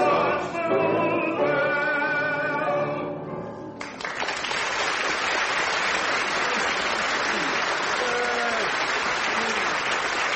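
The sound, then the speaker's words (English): Loud, sustained audience applause breaks out right after a crowd's group sing-along of a Scottish-style song. The singing voices are heard at the start, and then dense clapping fills the rest. “I was just reflecting how audiences do love applauding their own singing, don't they?”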